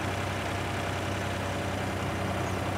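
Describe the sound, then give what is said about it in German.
Engine noise from a remote-controlled tracked crawler machine weighing about two tonnes, used on rough terrain. A steady, dense rumble runs unbroken throughout, with no voices. “€100.000 kostet die Raupe und wiegt rund 2 Tonnen. Die Fernsteuerung erleichtert vor allem das Arbeiten in unwegsamem Gelände.”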